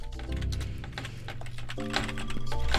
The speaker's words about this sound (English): What is with this keyboard? It's only one of its feet up. It has no feet. Oh, it's missing a rubber. Missing a rubber foot. That's why it's jumping around.